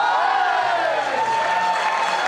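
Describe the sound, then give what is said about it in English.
A festival crowd in the town of Salvana cheers wildly for event winners, a dense, loud, unbroken roar of many voices that holds steady throughout. “One festival in the town of Salvana was especially boisterous. The winners of each event were cheered wildly.”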